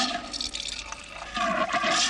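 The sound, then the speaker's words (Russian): Soda water pours into a glass as a steady liquid stream, bubbling and splashing, growing louder in the second half. “наливает газировку в стакан, собираясь пить.”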